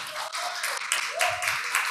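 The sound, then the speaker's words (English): Applause from a church audience during a Sunday service, a steady dense clatter of many hands lasting the whole clip, with a voice faintly audible beneath it. “Let's give a hand of applause here to”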